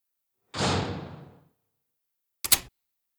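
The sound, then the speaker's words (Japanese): A front entrance door is pushed shut: a soft swishing rush of movement, a moment of quiet, then one sharp, solid thud as it closes, with no voices. “こんな話をするなら玄関を閉めてください。”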